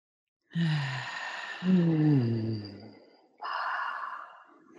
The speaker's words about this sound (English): All right, let's inhale.